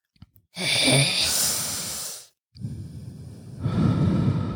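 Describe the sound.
A person draws a long, deep breath in. After a brief pause it comes out as a slow, breathy exhale that swells louder toward the end.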